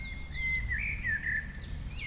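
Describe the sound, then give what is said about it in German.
Birds sing in a hotel garden oasis on the east side of an island, with faint, high whistled chirps and warbles over a steady low rumble. “Sie ist für ihre Gartenoase bekannt, in der sich auch viele Vögel wohlfühlen.”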